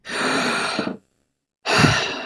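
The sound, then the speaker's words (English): A loud, awkward deep breath: a long, breathy inhale lasting about a second, a short silence, then a forceful, audible exhale, with no talking. “That's my awkward deep breath, but on radio. When you are doing a deep breath before in a meeting with someone else, don't make it as loud and awkward as I just made it.”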